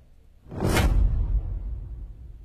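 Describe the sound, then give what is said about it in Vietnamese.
Gentle wind blowing through the canopy of a banyan tree: one soft, airy whoosh swells up, then settles into a low, lingering rumble that fades. “Trên tán cây đa, gió nhẹ nhẹ thổi”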